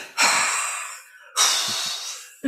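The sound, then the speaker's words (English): Exaggerated deep breathing: two long, loud, rushing breaths, each lasting about a second and slowly fading, separated by a brief quiet gap, with no talk over them. “just breathe in completely and then breathe out completely a few times.”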